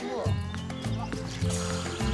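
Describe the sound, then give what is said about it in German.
Plaster powder being poured into water for mixing, a soft continuous rushing trickle heard under a person talking. “Okay, jetzt kriegt er erstmal Wasser rein. Komm mal her. Wasser. So, das wird reichen. Und Achtung, jetzt kommt der Gips.”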